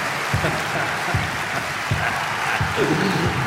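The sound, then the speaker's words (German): An audience applauds a winner with dense, continuous clapping, broken by four evenly spaced low thumps that give the ovation a rhythmic pulse. “Applaus! Applaus!”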